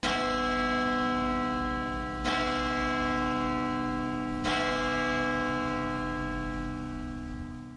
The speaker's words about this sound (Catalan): Va arribar a un poble. Va sentir que tocaven les campanes de l'església.